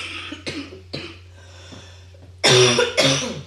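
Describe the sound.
Wet, phlegmy coughing from a person with mucus in the throat: a few separate harsh coughs, then a louder, rougher burst near the end, with quiet gaps between them.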